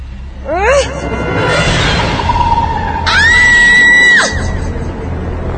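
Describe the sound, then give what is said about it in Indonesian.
A woman screams loudly in a horror story: two long, shrill, sustained cries, the second higher and more piercing than the first, set over a low background rumble. “Seketika itu juga aku berteriak sekencang-kencangnya ketika aku melihat ada sosok perempuan dengan baju putih panjang dan rambutnya yang hitam panjang”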